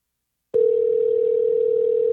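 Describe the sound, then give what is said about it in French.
Telephone dial tone heard while calling someone: after a brief silence, a single steady, unbroken mid-pitched tone sounds alone and holds at an even level to the end, with no voices. “Je suis encore en train de pitonner en même temps que je vous parle. C'est difficile. Et voilà, on l'appelle.”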